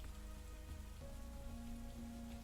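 Steady rain falling and pattering on a surface, a dense continuous hiss of drops that stays even and fairly loud throughout, with no voices.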